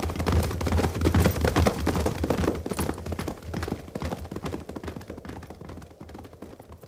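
Horses gallop in a radio drama, a group of riders setting off. Hooves pound in a dense, rapid drumming that gradually fades over several seconds.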